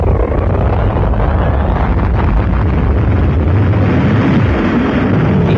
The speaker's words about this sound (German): Die Wissenschaftler der Welt starten den ersten Flug zur Venus.